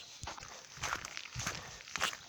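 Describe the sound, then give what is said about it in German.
Footsteps crunch softly through a foggy forest at about 1140 meters altitude, a few quiet, unhurried steps at an even walking pace. “Ich laufe hier durch einen sehr nebligen Wald auf 1140 Meter Höhe.”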